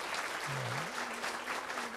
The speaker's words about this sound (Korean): 오늘도 정말 귀한 찬양을 우리에게 들려주시고 주님께 영광 돌렸는데 다시 한번 박수 쳐주시기 바랍니다.